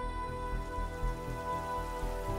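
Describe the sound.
Rain falls steadily in a village, a dense, even hiss that holds constant throughout with a soft low rumble beneath and no voices.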